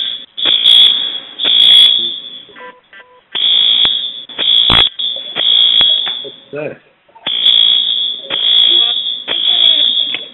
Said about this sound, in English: We have the fire alarm going off.